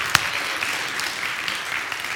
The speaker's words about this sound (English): Let's applaud this beautiful day, okay?